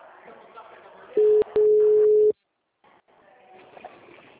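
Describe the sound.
A telephone tone sounds after a dropped call: two steady low beeps, a short one and then a longer one, each set off by a click over faint background noise, before the line falls silent.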